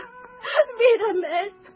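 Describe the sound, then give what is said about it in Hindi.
A woman's voice sobs bitterly and wails for a princess crying over her ruined palace. Wavering, pitched cries rise and fall in a short, loud burst. “तभी राजकुमारी मैना एक तलघर से निकलकर बाहर आई। अपने गिरे हुए महल को देखकर वो फूट फूट कर रोने लगी।”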